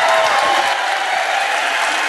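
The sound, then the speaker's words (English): Audience applause welcoming a guest to the stage, a dense, steady wash of many hands clapping that stays loud and even throughout, with no voices standing out. “I'd, like you to respond with a, a crazy Queens Boulevard welcome. Give it up for Mark Charles as it comes in.”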